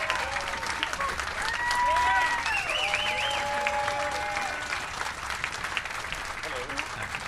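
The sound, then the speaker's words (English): Audience applause at a horror convention as guests are welcomed onto the stage: dense, sustained clapping from a crowd, with a few whistles rising above it. “Let's give it up for William Ostrander, Malcolm Danare, and Steven Tash from Christine.”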